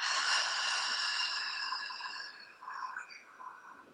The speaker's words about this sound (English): Normally you wouldn't need to make the noise. I'm making the noise so you understand. So you inhale. Exhale.